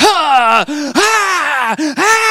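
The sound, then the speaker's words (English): A man's voice imitates a shirtless, tattooed man holding a double-bladed axe breathing very hard: five loud, strained, voiced gasping breaths in quick succession, with a groaning quality and nothing else audible. “He had an axe in his hand, a double axe, a double-bladed axe, and he's breathing very hard, like,”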